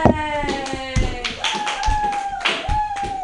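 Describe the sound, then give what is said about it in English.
An open-mic comedy audience applauds as a comedian is introduced, a brisk burst of hand claps with a steady tonal sound running beneath. “Put your hands together for George D. Smith.”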